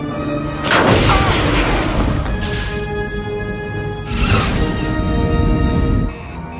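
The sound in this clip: Sci-fi weapons fire in a space battle as a ship enters a rift: a few loud booming blasts burst over a steady, dense rumble, with thin tonal whines running throughout.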